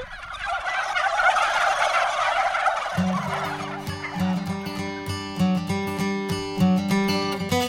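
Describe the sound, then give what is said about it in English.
Several noisy turkeys gobble loudly and repeatedly in warbling, rapid bursts: a dense chorus at first, then many overlapping gobbles that come one after another, with no voices. “her noisy turkeys”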